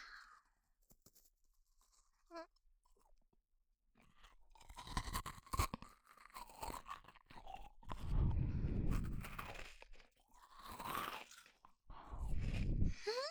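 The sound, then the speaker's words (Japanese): Crunching and chewing of a homemade cookie: after a quiet start, many soft crackling bites and munching sounds come in repeated bursts. “うん、このクッキー美味しい。 ね、美味しいよね。”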